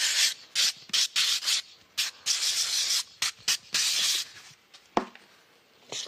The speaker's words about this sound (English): Sandpaper.